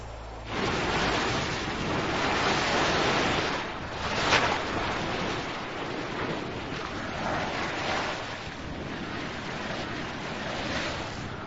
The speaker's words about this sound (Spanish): Y su corazón violento aún arde, liberando vapor a través de unos 300 géiseres, más que en cualquier otro lugar del mundo.